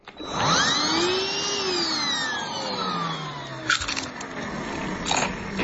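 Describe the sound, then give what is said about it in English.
A vacuum cleaner running is layered with a wine glass set down on a table and a potato chip being crunched. A loud, steady whine with sweeping pitch glides is broken by brief, crunchy bursts later on. “So what it was, first one was putting a glass down on a table, a wine glass. Second one, a vacuum cleaner going on. Third one, someone biting and crunching a potato chip.”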